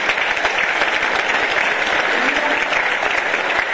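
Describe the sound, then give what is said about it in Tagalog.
Sustained applause from an audience at a church gathering, clapping for the people who shared their testimonies. The dense, even clapping runs loud and unbroken through the whole clip. “Palakpakan natin yung mga nag-share sa inyo.”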